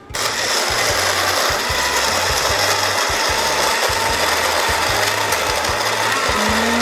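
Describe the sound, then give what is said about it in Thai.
A blender whirs as it blends a smoothie. The loud, continuous motor drone carries a rhythmic low pulsing and holds steady for almost seven seconds. “เดี๋ยวเราก็จะปั่นสักพักหนึ่งนะครับขอแบบดูเป็นสมูทตี้”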